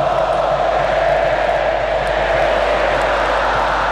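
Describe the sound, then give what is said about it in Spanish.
Stadium crowd in Zapopan singing in support of the Colombian national team, a loud, steady, unbroken roar of many voices that holds at the same level throughout. “Señoras y señores, está cantando el estadio de Zapopan.”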